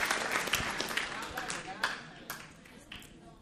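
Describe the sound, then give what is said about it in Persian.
Faint applause from an audience at a talk, a dense patter of clapping that tapers off while a voice speaks over it. “بعضی هنوز اینجوری دست میزنن. مرسی.”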